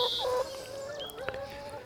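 Eager hens crowd around in the morning, giving a few tonal clucks and squawks over a faint steady background. One higher call stands out near the start.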